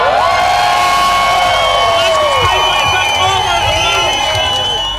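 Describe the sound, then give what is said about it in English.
Crowd at the Glasgow Pride march, marking 25 years of organised marches, cheering and whooping loudly in a sustained roar of shouts and high cries, with a little clapping mixed in. “Thousands of people have taken part in Glasgow Pride, marking 25 years of organised marches in Scotland's largest city. It is as loud as possible, Glasgow!”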